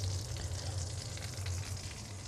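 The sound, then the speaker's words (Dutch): Food that has been browned on both sides fries in fat in a pan, giving a steady, crackling sizzle at moderate loudness with no voices. “Nou, die heb ik nu aangebraden aan beide kanten.”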